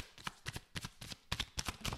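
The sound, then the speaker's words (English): Tarot cards are shuffled by hand, a quiet, rapid run of soft papery slaps and brushing riffles repeating unevenly over two seconds. “let's pull a tarot card and see what the message from the universe is for the week for us.”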